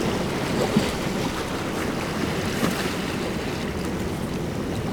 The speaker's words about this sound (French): c'est celui de la marée montante.